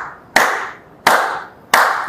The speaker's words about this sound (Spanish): esténse conscientes o dense cuenta del aplauso que voy a hacer, mira, a ver.